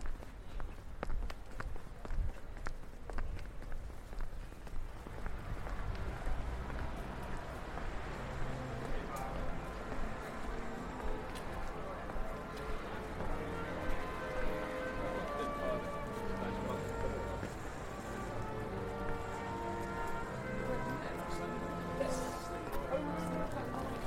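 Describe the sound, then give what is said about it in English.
Footsteps walking along a London city street near Piccadilly, a steady stride set against continuous urban bustle with murmuring voices in the background. “we have to leave the courtyard and start walking the streets. So we're heading out onto Piccadilly”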